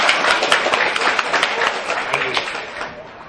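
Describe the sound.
Applause at a Buddhist dharma gathering: a crowd claps in a dense, crackling stream that starts loud and gradually thins and fades toward the end.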